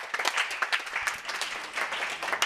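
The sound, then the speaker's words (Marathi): An audience claps for a student at a youth talk event at Swami Ramanand Teerth Marathwada University in Nanded, with fairly loud, uneven clapping from many hands and individual sharp claps standing out from the steady patter. “खूप छान, या मैत्रिणीसाठी टाळ्या होऊन जाऊ द्यात.”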